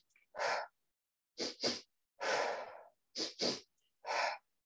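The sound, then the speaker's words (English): Yoga breathing exercise with audible breaths: pairs of quick, sharp inhales followed by a longer, drawn-out exhale, repeated a few times, fairly soft and breathy with silence between breaths. “So what it looks like is two quick inhales and an exhale.”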